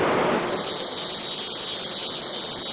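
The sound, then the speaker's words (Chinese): Cicadas chirping on a summer day, a loud, high-pitched continuous buzzing drone that swells in within half a second and then holds steady without a break. “这夏天知了来了， 蝉鸣声， 蝉鸣声。”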